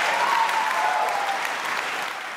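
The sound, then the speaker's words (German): Applause and cheering from an audience at the German nonfiction book prize ceremony as a historian is honoured, a dense, steady roar of many clapping hands that eases slightly toward the end. “Applaus und Jubel für das beste Sachbuch des Jahres an den Historiker Ewald Frieh.”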